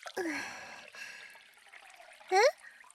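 Beer pouring into a glass for a second round: a soft, trickling stream of liquid, then a brief louder gurgling burst near the end.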